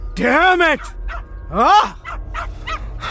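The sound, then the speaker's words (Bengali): A dog barks upstairs: two long, whining, yelp-like barks rise and fall in pitch. A few shorter, fainter sounds follow between them. “তার প্রিয় কুকুরটা উপরে চেঁচাচ্ছে”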